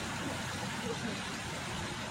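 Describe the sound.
Steady road traffic noise from cars and trucks on a busy roadway, a continuous even wash of engine and tyre rumble with no distinct separate events.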